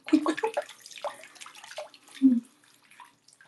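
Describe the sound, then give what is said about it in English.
Running water while wetting hair, splashing and gurgling in uneven bursts that fade to near silence toward the end. “Just kind of getting my hair wet a bit.”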